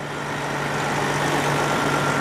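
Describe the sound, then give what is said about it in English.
Steady idling of a red tour bus engine parked beside a city plaza near an outdoor stage, a constant low rumble with a faint steady hum, even in loudness throughout, with no talking. “A red tour bus pulled up beside Miller Plaza. The bus sat idling near a stage”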